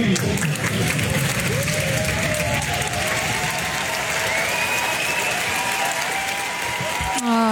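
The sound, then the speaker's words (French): An audience gives a standing ovation at the end of a show, with dense, loud, sustained clapping across the whole stretch and cheers and scattered voices rising over it. “Je ne sais pas si vous aviez l'intention de faire un standing ovation à la fin du show, c'est votre choix. Mais je vais vous obliger à en faire un, là, pour Marc.”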